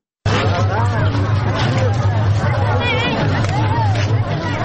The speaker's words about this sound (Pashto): دا شور او زواج په ترینکوټ شار کې د میلیانو دی نه د موټرو.